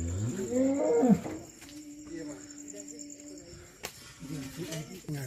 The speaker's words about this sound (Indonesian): Sapi iki dak rada Jawa. Sapi juara kok iki ning kene mangane.